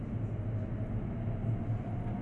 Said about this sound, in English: This is the train to Abbey Wood via Canary Wharf.